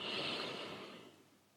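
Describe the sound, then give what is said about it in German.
A single deep inhale during a guided breathing and gratitude relaxation exercise: a soft, breathy rush of air, loudest at the start and slowly fading over about a second and a half, with no talk over it. “Noch ein letztes Mal. Tief einatmen.”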